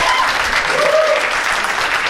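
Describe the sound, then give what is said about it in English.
Audience applause rolls on steadily throughout, a dense, even wash of many hands clapping without breaks. “Give all you guys a round of applause.”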